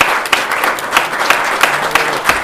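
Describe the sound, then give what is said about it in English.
An audience applauds the speakers at the close of a talk, with dense, steady clapping from many hands holding an even level throughout. “So ladies and gentlemen, can I just start joining me in a round of applause for the speakers?”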